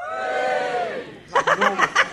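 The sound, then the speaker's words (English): A comedy audience cheers with a long, sustained shout of many voices, which then breaks into a quick series of short, rhythmic bursts. “Give us a cheer if you've been in a helicopter.”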